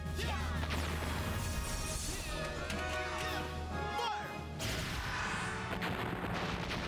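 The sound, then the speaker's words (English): Heavy quasar launcher weapons firing in a video game, a dense, continuous barrage of booming blasts and crashing impacts that stays loud throughout. “I think we're gonna need some big firepower. Quasar launchers.”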